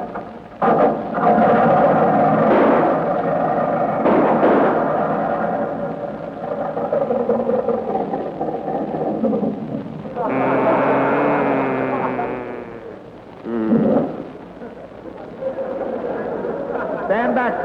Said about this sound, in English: give that propeller a spin and see what happened. Okay. Contact.